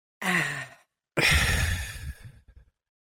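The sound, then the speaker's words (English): A deep breath is drawn in during a guided breathing exercise. Two airy breath sounds are heard alone, a short one first and then a longer, fuller one that trails off. “Deep breath in.”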